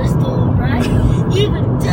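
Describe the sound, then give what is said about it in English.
Semi trucks speeding past on a road, a steady low rumble of traffic with someone talking over it throughout. “Man, these guys are driving like madmen out here today. I'm talking about the semis.”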